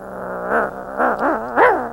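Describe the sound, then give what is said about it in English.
A person imitates a hungry dog, voicing whiny, growling sounds in four short bursts whose pitch wavers up and down over a low, steady hum. “Let's pretend to be dogs for a little bit, okay? Here we go. Whatever. You're a dog. You're hungry.”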